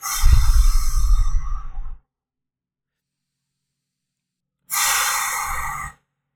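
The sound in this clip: Slow breathing during a guided breathing exercise: a long airy breath drawn in through the nose, a few seconds of silence, then a long breath exhaled through the mouth.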